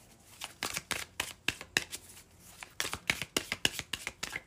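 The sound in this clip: A deck of cards is shuffled and drawn for a card reading: many crisp papery flicks and slaps in quick, uneven succession, fairly quiet, with no talking.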